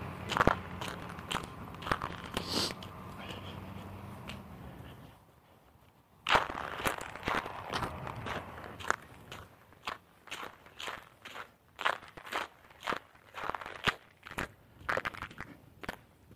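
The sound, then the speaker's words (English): Many footsteps crunching across treacherous, crunchy ground in a dooryard in the morning. The steps fall in an uneven rhythm, go quiet for a brief pause partway through, then resume with sharp, crackling crunches. “So yeah, the walking this morning is a little bit on the treacherous side.”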